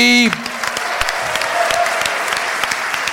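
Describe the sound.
Audience applause welcoming a guest onto the stage: steady, dense clapping after a voice cuts off at the start, holding at an even level to the end.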